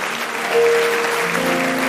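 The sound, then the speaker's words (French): A church audience applauds, a continuous wash of clapping with sustained tones underneath, holding a steady level throughout. “Merci ma soeur, on peut acclamer pour elle.”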